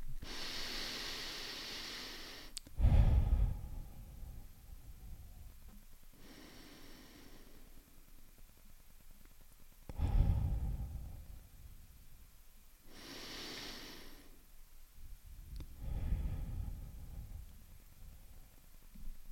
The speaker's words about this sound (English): I can do a couple of deep breaths.